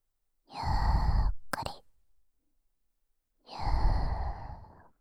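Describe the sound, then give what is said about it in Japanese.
A deep breath in and out during a guided relaxation, heard as two long, breathy gusts separated by a pause of about two seconds, with a brief click after the first. “深呼吸して、そう、”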